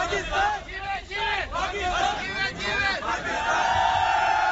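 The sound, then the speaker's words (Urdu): Loud crowd cheering and chanting from hundreds of people in Karachi welcoming Pakistan's cricket captain home with the Champions Trophy. Many voices shout and chant together in a continuous, swelling roar with repeated chant-like rises. “کپتان سرفراز Ahmad trophy کے ساتھ کراچی پہنچے تو airport اور پھر ان کے گھر کے باہر سینکڑوں کی تعداد میں لوگ ان کی جھلک دیکھنے کے لیے موجود تھے۔”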